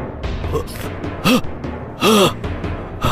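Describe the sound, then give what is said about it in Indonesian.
Two strained, voiced gasps of laboured breathing from a person suddenly short of breath. The second gasp is longer than the first, and both stand out over a low background. “Kenapa napasku tiba-tiba jadi sesak begini?”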